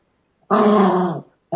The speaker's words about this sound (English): sounds like my dog wants to cry right now